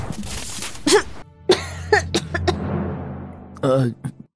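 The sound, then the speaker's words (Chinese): A few harsh, short coughs from someone choking on dust after a handful of soil is pushed over, spaced bursts ending in a stronger, rasping throat-clearing cough. “司藤似乎有被呛到，好像还咳了一下。”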